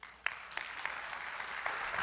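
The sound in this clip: Audience applause welcoming a guest speaker introduced by a pastor: faint, steady clapping from a crowd that holds at an even level for about two seconds, with no voices over it.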